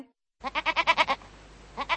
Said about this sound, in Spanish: La cabra checa hace me, me.